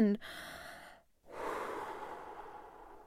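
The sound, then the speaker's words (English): A deep, audible breath is drawn before blowing on a fluffy, dandelion-like seed head. A brief voiced sound opens it, then comes a rush of air, a short silence, and a longer, louder, fading wash of breath. “he took a deep breath”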